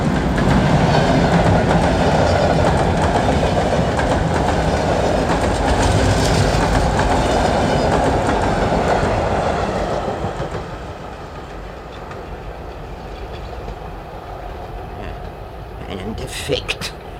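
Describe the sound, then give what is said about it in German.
An express train thunders past with a loud, steady rumble and clatter of wheels for about ten seconds, then drops to a quieter, fading rumble with a few faint clanks near the end. “Der D-Zug! Der D-Zug!”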